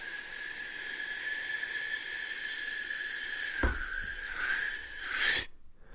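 A single human sneeze over a steady high-pitched whine: breathy rushes build up, then one sharp, loud burst of air before sudden silence.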